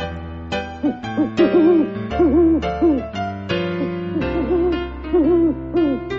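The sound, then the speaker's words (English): An owl hoots in a forest at night in a series of soft, repeated, gliding calls over sustained musical tones, loud and continuous, with no voices. “One night, when Bobo got lost in the forest, an owl named Olivia helped him to find his way home.”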